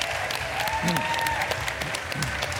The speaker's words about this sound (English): we'd love you to give a huge round of applause to our guests